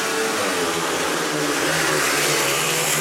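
Speedway motorcycles roar away at the start of a heat, a loud, dense, continuous engine howl that holds steady throughout, with no talk over it.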